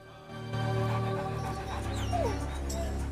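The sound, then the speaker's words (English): Dogs chasing after tigers whimper, yip and pant over a steady low background rumble, giving thin high cries and a few short yelps at a fairly constant level. “Men and dogs chase after the tigers.”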